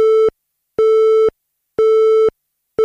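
Telephone busy tone after a call cuts off: a loud, steady, mid-pitched beep repeating in even on-off pulses, three full tones and the start of a fourth, with nothing else heard.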